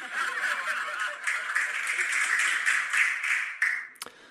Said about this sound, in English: it knowing that it's a terrible joke and putting in the sort of rather feeble clapping and laughter, makes it funny. See, I'll do it again, the delivery.